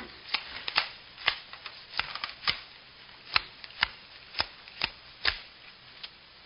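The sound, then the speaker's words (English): Playing cards are shuffled and dealt for a poker game: many sharp, faint snapping flicks at an uneven, brisk rhythm. “I'll deal you some poker. Your luck's due to turn.”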